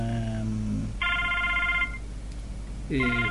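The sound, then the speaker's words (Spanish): A telephone rings in a studio in a few electronic, tonal bursts with a gap between them, alongside speech. “El teléfono está... Sí, me doy cuenta que es el teléfono.”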